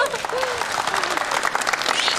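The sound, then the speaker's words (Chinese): An audience applauds, a dense run of clapping that stays loud throughout, with a voice speaking over it. “给鼓掌。”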